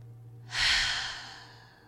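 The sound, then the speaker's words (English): A single deep inhaled breath that swells quickly, then fades slowly, faint and alone over a low steady hum. “first take a breath, inhale. Let's do one more.”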